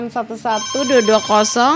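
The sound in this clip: Electronic telephone ringtone on a radio call-in line: a rapid run of short, bright repeated tones, then longer warbling tones that stay fairly loud until the end.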